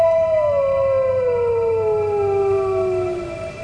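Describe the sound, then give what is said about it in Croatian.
A wolf howls at dawn in one long, unbroken tone that slides slowly downward in pitch. The howl stays loud throughout over a low, steady background hum. “Vuk? Usred zore? To ne može biti.”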